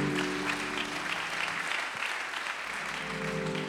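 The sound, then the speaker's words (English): Applause from a church audience clapping to welcome guests during a bilingual service: a steady, dense wash of many hands that holds at an even level for the whole stretch. “Let's give our guests a hand clap.”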